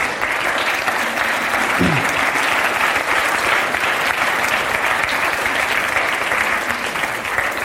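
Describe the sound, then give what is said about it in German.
An audience gives sustained applause during a church service. The thick wash of many hands clapping stays loud and even for the whole stretch. “Wir Können denen einfach mal einen Applaus geben?”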